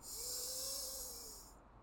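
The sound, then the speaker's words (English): Deep inhale during a pranic breathing exercise: a long, steady, airy hiss held for over a second, then cutting off abruptly; fairly faint and alone. “Inhale and hold.”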